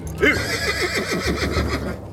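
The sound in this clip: A horse neighs in a radio drama: one loud whinny with a shaking, wavering pitch that lasts about two seconds over a low rumble.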